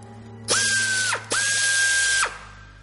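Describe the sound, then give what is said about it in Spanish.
Locking screws are turned counterclockwise with a power driver: two separate bursts of high, steady whirring, each rising quickly in pitch as it spins up and then cutting off sharply, heard alone. “Gira los tornillos de cierre al contrario de las agujas del reloj.”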